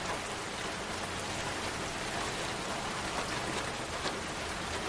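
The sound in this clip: Rain falls steadily on a street at night, a dense, even hiss of drops that stays at the same level throughout with no voices.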